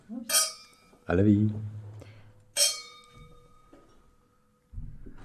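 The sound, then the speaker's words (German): Wine glasses clink twice in a toast during a tasting of Spanish wines, each strike a bright, sharp chime with a sustained ringing tone; a voice speaks between the two clinks. “Okay, komm, probieren wir den. Der nächste. Röstli. Cheers.”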